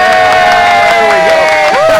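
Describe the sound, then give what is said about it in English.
A studio audience cheers on cue, a sustained burst of loud whoops and shouting voices with some clapping mixed in, holding steady from start to finish. “Can we hear from the studio audience?”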